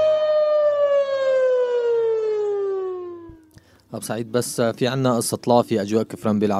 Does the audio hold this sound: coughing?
no